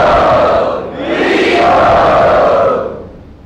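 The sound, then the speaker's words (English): Loud roaring cheers from an audience at a temple gathering for Sri Sri Radha Gopinath, welcoming a guest who stands up. The roar is dense and sustained, dips briefly, surges again and then fades away at the end. “Everyone kindly welcome him to Sri Sri Radha Gopinath. Very loudly, please.”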